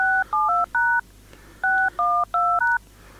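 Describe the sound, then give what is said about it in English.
Touch-tone beeps from automated telephone dialing: eight steady, dual-pitched tones in two quick groups of four, separated by a short pause, over a faint low hum. “And this is all automated dialing stuff that I'm doing.”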